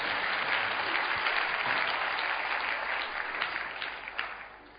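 A church audience claps together as an offering of praise, producing dense, sustained applause that holds steady and then tapers off in the final second.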